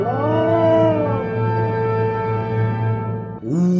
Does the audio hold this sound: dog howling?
yes